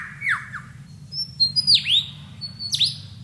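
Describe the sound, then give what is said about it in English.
A bird in the forest mimics a camera shutter: a few sharp, downward-sweeping chirps and clipped squawks, spaced apart, over a low steady rumble. “He also, in his attempt to outsing his rivals, incorporates other sounds that he hears in the forest. That was a camera shutter.”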